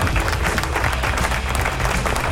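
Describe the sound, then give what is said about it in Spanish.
Applause from a crowd in a studio setting, a dense steady wash of clapping lasting about two seconds, fairly loud and continuous with no voices over it. “¡Aplausos! ¿Dónde están los aplausos?”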